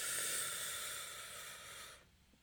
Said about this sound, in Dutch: Go, go, go. Adem diep in.